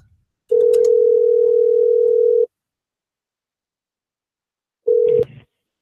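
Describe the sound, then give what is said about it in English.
A fake ringback tone plays on a phone call: one long, steady tone of about two seconds, then silence, then a second burst that is cut short. “Oh, and it's our favorite fake ringing.”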